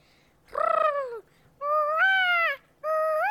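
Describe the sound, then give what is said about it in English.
A child's voice imitates a peacock call: three loud, nasal, wailing cries with short gaps between them, each rising in pitch. The whole imitation sounds like a high, piercing honk, with no other talk. “Wow, that's a really good peacock impression.”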